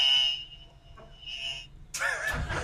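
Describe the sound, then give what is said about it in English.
An electronic game-show buzzer, part of a buzz-in system for comedians answering questions, gives short high-pitched tones and then a louder, harsher burst near the end. “our comedians must buzz in using our high tech buzzer system”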